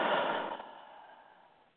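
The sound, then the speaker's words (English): Deep exhale, breath blown out in one long breathy rush that starts strongest and fades gradually away over nearly two seconds, faint and alone. “Take a deep breath. And blow it out.”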